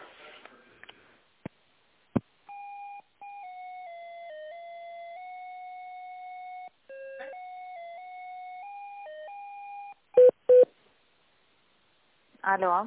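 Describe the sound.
Electronic phone-line tones play while a call is transferred to a contracts department: a steady melodic tone sequence stepping between pitches, then two short beeps. Brief speech is heard at the start and end.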